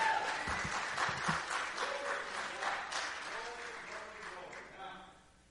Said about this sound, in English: And uh, give him another hand as we welcome him.